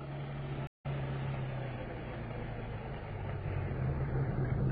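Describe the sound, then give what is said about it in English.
A car engine drones steadily as the vehicle drives through city streets, a low, even rumble with a faint hum and no other distinct events. “He drove out Sunset Boulevard and back down Wilshire, down Spring and over to Hope Street. Along the way, I lost sight of Frank and Captain Kearney. Finally, at 8:36, we pulled up at the corner of Spring and Lebanon.”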